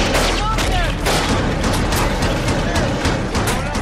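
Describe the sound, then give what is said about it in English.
Heavy gunfire during a military raid in Fallujah, Iraq, in November 2004: dense, overlapping volleys of shots and deep booms, loud and unbroken from start to finish. “That's the sound of a raid in Fallujah in Iraq in November of 2004.”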